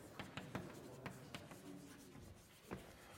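Writing by hand, faint scratchy strokes and sharp taps at an uneven pace, with brief pauses between bursts of marks.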